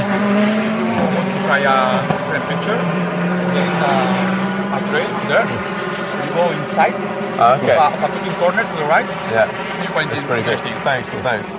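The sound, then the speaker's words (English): Rally car passing on a stage, its engine a sustained droning note in the opening seconds before fading, while people talk over the sound throughout. “But that's the first car on the road today.”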